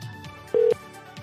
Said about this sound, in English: I better call her back one more time, do a quick survey.